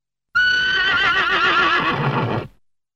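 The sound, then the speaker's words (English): A horse neighs in one loud whinny of about two seconds. The high, wavering pitch trembles throughout before the call cuts off and trails away. “Horse.”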